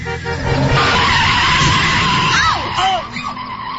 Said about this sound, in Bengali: হঠাৎই ড্রাইভার গাড়ির ব্রেক কষল। ফুল স্পিডে গাড়ি চলার পর এমন আচমকা ব্রেক কষায় রবিন শিমু দুজনে একটু হুমড়ি খেয়ে পড়ল।